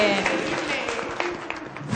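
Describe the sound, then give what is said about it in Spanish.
Applause for children after a physical exercise, a brief spatter of clapping mixed with someone talking. “Pues un aplausote para nuestros. Vamos a darles un aplausote. Lo hicieron súper bien.”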